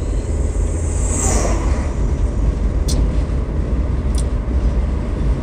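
A car driving along a road gives a steady, loud, low rumble of road and engine noise that holds evenly throughout, with two brief, faint high ticks partway through.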